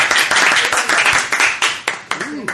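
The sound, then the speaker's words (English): An audience applauds with loud, dense hand clapping that thins into fewer, separate claps toward the end. A brief voice is heard near the end. “Give it a round of applause, ladies and gentlemen.”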